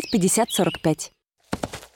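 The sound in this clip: A few clopping horse hooves, brief and fairly loud, follow a stretch of voiced sound.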